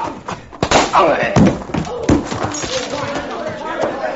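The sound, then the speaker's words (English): Punches land on the jaw in a fight scene: a few heavy, dull thuds amid loud, agitated voices and scuffling. “Hit him in the jaw again, Chad. I can use those gold teeth.”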